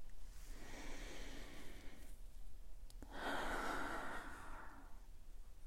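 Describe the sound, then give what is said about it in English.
A deep breath drawn in through the nose while smelling mint tea, heard as a soft, airy rush followed by a second, louder breath. Both are faint, with no voices. “So I've opened up my 3 mint tea here, and I'm going to hold it up to my nose and take a big breath in.”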